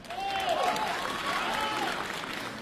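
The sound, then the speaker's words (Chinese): Warm audience applause at a comedic crossed-talk performance show, steady dense clapping from a crowd that swells slightly and then holds at an even, lively level. “谢谢大家热情的掌声。”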